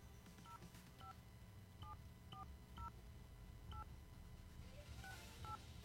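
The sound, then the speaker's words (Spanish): A telephone number being dialed with DTMF keypad tones: a string of short, clear two-tone beeps at uneven intervals, faint against a steady low background hum. “Marqué mal, creo que marqué mal. A ver, vamos a intentarlo una vez más.”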